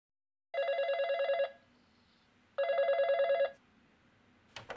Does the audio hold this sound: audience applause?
no